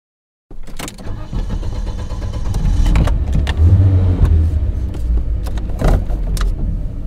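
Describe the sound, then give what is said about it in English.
Someone getting into a black Porsche SUV: sharp clicks and clunks with a jangle of keys, over a steady low engine rumble that swells slightly midway. “jump into her black Porsche SUV”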